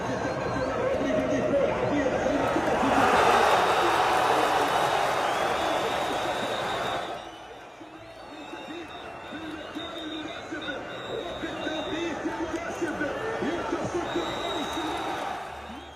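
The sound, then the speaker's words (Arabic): A large crowd of football fans in Gaza cheers and chants in a sustained, dense roar. The noise is louder in the first half, dips briefly midway, then swells again. “فسوا منشوف هالفيديو. هذا الجمهور يا جماعة الخير من خلق الله غزة، مش بمصر زي ما انتم شايفين، هذا جمهور أهل غزة.”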